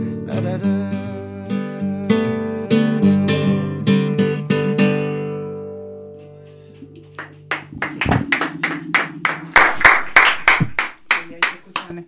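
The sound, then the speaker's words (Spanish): Sustained sung piano-like chords fade out and give way to hand clapping, a quick run of sharp, uneven claps that grows louder toward the end. “Los aplausos.”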